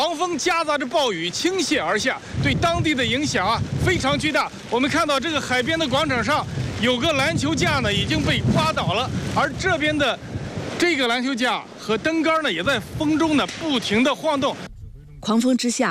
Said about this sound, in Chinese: 狂风夹杂着暴雨倾泻而下，对当地的影响非常巨大。